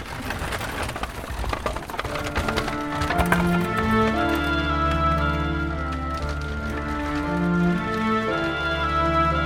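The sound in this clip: Hooves of a horse-drawn carriage clip-clop in a quick, steady rhythm that runs throughout, beneath a bed of sustained tonal music.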